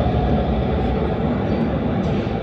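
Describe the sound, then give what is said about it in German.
A vintage tram passes by with a loud, steady low rumble and rattle that stays level throughout. “Das ist eine Oldtimer-BIM, die wir gerade sehen, die bei uns vorbeifährt.”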